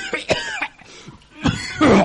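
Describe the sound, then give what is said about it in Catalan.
Harsh human coughing comes in a few rough bursts, with raspy throat clearing between them and a heavier, drawn-out cough at the end. “Quant de temps fa que tens aquesta tos?”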